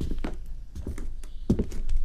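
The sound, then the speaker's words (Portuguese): Footsteps of someone coming back home at four in the morning: a few soft, irregular thuds and scuffs spaced across the stretch, with a heavier pair of steps near the middle and no voices. “Pareceu-me ouvir passos. Alguém que regressa à casa.”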